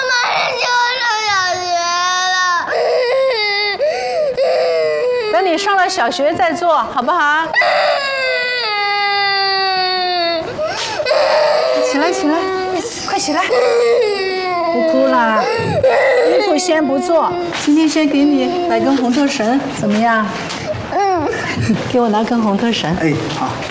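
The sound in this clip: A young girl cries and wails continuously, her sobs rising and falling in high, strained bursts, while adults talk to her over the crying throughout.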